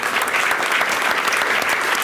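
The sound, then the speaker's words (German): Dense, even audience applause from a stage-show crowd, loud and unbroken throughout with no other sound standing out. “Ein Applaus bitte.”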